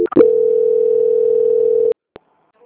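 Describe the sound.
Steady telephone line tone during a call transfer to a quality control department, a single sustained mid-pitched hum lasting almost two seconds after a short clicky start, then a couple of brief clicks and silence.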